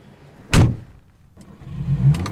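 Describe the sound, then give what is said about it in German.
A car door thumps shut once, then a car engine rumbles up with a low, steady drone as the car pulls away. “Da vorne steht mein Auto. Na komm, wir fahren eine Runde. Wieso, was ist los? Erzähl ich dir im Auto. Komm, steig ein.”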